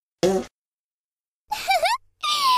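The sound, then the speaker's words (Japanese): Three loud fart noises: a short burst, then, after a pause, two longer, raspy ones close together, the first of those wavering in pitch. “女の子におならぶっぱなされた気分はどう？”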